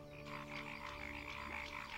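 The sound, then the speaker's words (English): Male paddy frogs croak during the mating season as evening approaches, competing for females. Many quick, pulsing calls repeat in a steady rhythm, faint, over a low steady hum. “It's the mating season, and male paddy frogs are competing for the attention of the females.”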